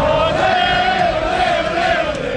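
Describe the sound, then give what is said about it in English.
A crowd of Canadian soccer fans marching through city streets to a stadium for their national team's match. A dense, continuous roar carries a sustained, wavering droning tone throughout, loud and unbroken. “thousands of Canadian footy fans bursting with pride crammed city streets this afternoon as they marched down to the stadium for Canada's big match.”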